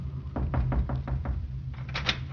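Rapid knocking on a medical officer's door aboard ship, a quick series of about six even raps followed by a brief pause and a couple more, crisp and fairly loud.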